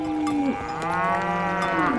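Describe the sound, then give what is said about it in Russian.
Cattle mooing, from about ten unmilked cows and a young brown bull by some ponds: several overlapping low moos, one long drawn-out call and others sliding downward in pitch. “Десяток коров и молодой бурый бычок. Подошли, мыча и толкаясь.”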